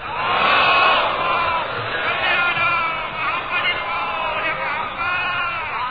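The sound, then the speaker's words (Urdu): A crowd chants salawat in unison at a religious gathering to honour a visiting maulana. Massed voices hold a loud, sustained chant for the whole stretch, with slight swells and dips. “ان کے اعزاز میں ایک نعرہ سلوات،”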